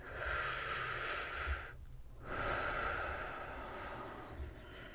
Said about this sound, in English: Take a deep breath to relax.